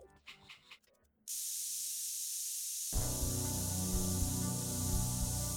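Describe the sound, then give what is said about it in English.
Air being pumped out of a spaceship airlock in a video game: after a brief softer lead-in, a loud, broad, steady hiss starts, then swells further with a deep rumble beneath and continues to the end. “That sound is the air being removed from the lock in advance of jettisoning the contents into space.”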